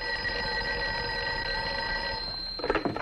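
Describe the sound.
A telephone rings with a steady, continuous high trilling that stops abruptly and is followed by a brief clatter.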